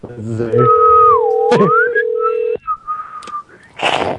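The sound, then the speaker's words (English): A person whistles, imitating telephone touch tones: a long, steady mid note with a sliding higher whistle over it, then short choppy notes, with a voice briefly at the start and a noisy burst near the end. “You should whistle your touch tones and get it.”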